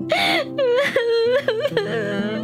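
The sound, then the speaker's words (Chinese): A person crying in loud, drawn-out wails and whimpers, voiced cries bending in pitch, broken into several sobbing bursts with brief catches of breath between them. “你干嘛哭啊？”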